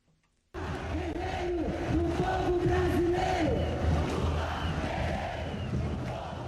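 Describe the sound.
A huge crowd cheers and chants at a massive political rally in São Paulo, Brazil, for former president Luiz Inácio Lula da Silva, bursting in abruptly after a short silence and holding a loud, sustained roar with rhythmic, rising-and-falling chanted voices.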